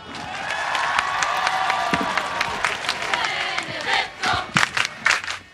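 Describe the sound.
Crowd of young Maltese people cheering and shouting to welcome Pope Benedict XVI, a loud, sustained roar with sharp claps breaking through more often toward the end.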